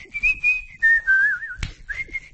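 A man whistles a tune: clear, high, melodic notes that glide and hold, rising and falling through a short phrase, with a brief sharp knock partway through.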